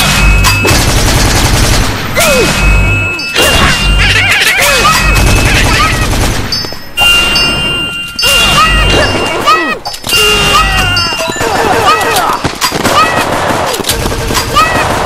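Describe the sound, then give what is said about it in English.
Video game gunfire, with dense, repeated bursts of shots and crashing impacts throughout a loud, busy mix of other game sounds. “Ooh, look at that! She's shooting her buddies.”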